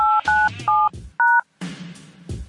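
Telephone keypad tones beep as a number is dialed into a conference call service: four short, loud, steady electronic tones, the last one after a slightly longer pause, followed by quieter sound.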